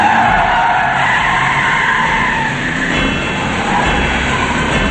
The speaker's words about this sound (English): They're in the parking garage, and the balding man drives toward them at full speed.